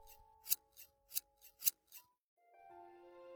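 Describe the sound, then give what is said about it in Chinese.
Pruning shears snip while trimming trees in a winter garden: six crisp metallic cuts in a quick, irregular rhythm over a faint hum, then soft tonal music takes over. “一定要对那些脆弱怕冷的植物做好充分的保护，还要对一些树木进行修剪。”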